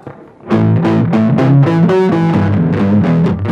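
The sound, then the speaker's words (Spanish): A distortion effect switches on: after a quiet start, loud buzzing distorted tones burst in and carry a shifting sequence of notes steadily to the end. “¿Qué pasa si presiono la distorsión, por ejemplo?”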